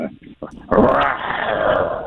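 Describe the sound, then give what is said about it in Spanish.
A person imitates a lion's roar: a few short vocal sounds, then a loud, sustained, rough growling roar that holds for over a second. “Enamórala, pero con un rugido de león, así.”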